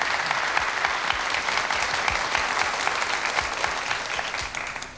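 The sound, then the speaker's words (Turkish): Audience applause at the close of a holiday variety show: dense, steady clapping from a large crowd, loud and continuous throughout, easing slightly at the very end. “bu güzel sözleri alkışlara kesildiği için lafa baştan başlıyorum”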